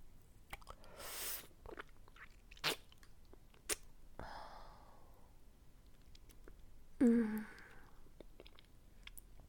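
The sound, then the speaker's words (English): Someone bites into and chews a popsicle: faint, scattered crunches, wet clicks and squishy mouth sounds come at irregular intervals against a quiet background, with a slightly louder crunch near the end. “This popsicle tastes so fucking good.”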